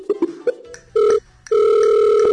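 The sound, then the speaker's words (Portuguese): A telephone call being dialed: a few quick keypad beeps, then a steady ringing tone that sounds twice, the second ring longer and still going at the end. “então vamos ligar para o Sr. K agora”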